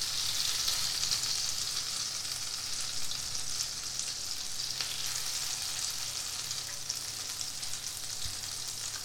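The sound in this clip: Butter sizzles as it melts in a pan, making a faint, steady, fine crackling hiss that continues evenly without pause.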